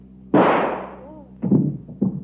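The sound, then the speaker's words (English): A single gunshot in a radio drama, a princess shooting herself, gives a sharp, loud crack with a decaying tail. Brief vocal sounds follow afterward. “Shot herself.”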